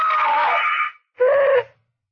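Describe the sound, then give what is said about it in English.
A woman screams twice in a nightmare. The first cry is long and sustained, then a short silence, then a second, shorter shrill scream. “there was a knife, a cold, cruel steel blade moving across my face, mocking me, and I screamed.”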